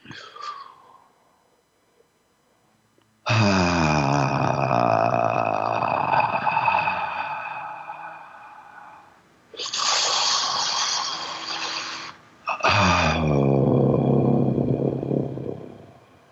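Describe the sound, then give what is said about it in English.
Deep inhalation as someone draws in as much air as possible: a long, loud, rasping breath followed by two shorter breathy pulls, with no talking in between. “Breathe in as deep as you can.”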